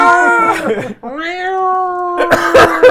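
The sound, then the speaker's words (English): A human voice imitates a cat meowing with a drawn-out, nasal tone that rises and then holds steady, set between other loud vocal sounds. “Open it up. Inside you see a cat going,”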